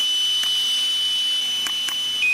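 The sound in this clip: An electronic breathalyzer beeps after being blown into, giving a single steady, high-pitched continuous tone that holds for the whole stretch and shifts slightly in pitch at the very end.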